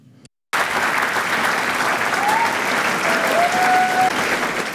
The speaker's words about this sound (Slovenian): Stoječimi ovacijami je občinstvo, ki je dodobra napolnilo dvorano v Kosovelovem domu, nagradilo igralce, pevce in glasbenike, ki so na odru interpretirali Kosovelovo poezijo.